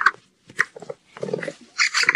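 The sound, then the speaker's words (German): A capybara calls in several short bursts of squeaky, grunting sounds with brief gaps between them, fairly loud and with no voices over them. “Tada! Das ist ein Kapibara. Oder auf Deutsch ein Wasserschwein.”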